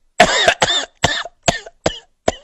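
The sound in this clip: A voice imitates a passenger's hacking cough on a long flight: a rapid series of harsh, rasping coughs in separate bursts with short gaps, each fairly loud, with no talk.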